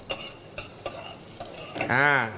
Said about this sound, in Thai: แล้วก็กระเทียมอีก1ช้อนชาครับแล้วก็ผัดให้มีกลิ่นหอมครับ